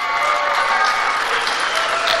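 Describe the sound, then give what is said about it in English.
An audience at a political coalition event applauds steadily, a dense, even wash of clapping that stays at a constant level from start to finish. “that's the Republican Jewish Coalition applauding turning away immigrants fleeing persecution.”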